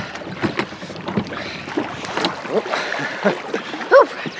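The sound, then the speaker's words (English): A rowboat is rowed across water, oars dipping in a steady run of splashing strokes while water sloshes and gurgles continuously around the hull. “If you don't row more quickly, I shall get out and swim.”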